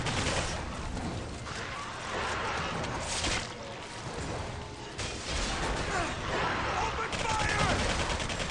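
Gunfire from a zombie horde mode in a video game: dense, rapid, loud volleys of shots and crashing impacts run continuously, with bursts stacking on one another with no real pause.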